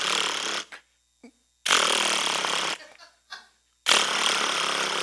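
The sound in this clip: A voice imitates an impact wrench removing a lug nut from a truck wheel: three long, harsh buzzing bursts, with brief breathy pauses between them.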